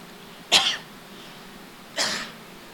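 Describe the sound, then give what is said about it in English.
Coughing from a tickle in the throat: two separate harsh coughs about a second and a half apart, each a short, loud burst that fades quickly, with no talking. “I've got like a tickle in my throat. Think I got it.”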